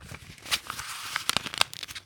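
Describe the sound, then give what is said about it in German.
Paper crinkling and tearing, as in an ASMR demonstration: many quick, crisp crackles and rustles, fairly soft, with a denser run of sharp snaps toward the end. “Also was die Leute am häufigsten gucken für sowas, ist irgendwie so Papier reißen, Papier knistern,”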